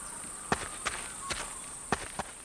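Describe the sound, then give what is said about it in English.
Footsteps walking: five soft, unevenly spaced steps, faint against a steady hiss and a thin high whine, with no voices. “They walk and walk.”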